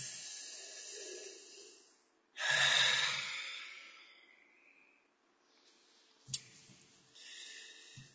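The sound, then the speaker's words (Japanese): Deep breathing during a stretching break of neck and shoulder exercises midway through a quiz session. Slow breaths in and out, with a loud hissing exhale early on, then a later inhale with a brief sharp catch, followed by another breath out. “はい、深呼吸。”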